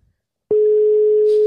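A telephone call rings out unanswered: a single steady, pure mid-pitched tone lasts about a second and stops cleanly, heard alone without speech.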